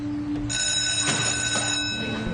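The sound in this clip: Ringing on the line while a telephone call is placed, a steady ringing tone heard alone, with a few faint clicks.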